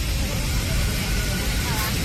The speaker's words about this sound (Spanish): Así sonaba dentro del avión.